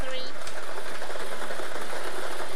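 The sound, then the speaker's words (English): A Daily Millions lottery draw machine spins its numbered balls, giving off a loud, steady mechanical whir and rattle that runs without pause from start to end. “If the numbers are right, we're playing our Daily Millions game for Saturday, the 2nd of May, 2026. Let's get these balls spinning so you can start winning.”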